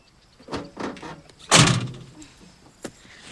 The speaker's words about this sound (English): She leans over and closes her door.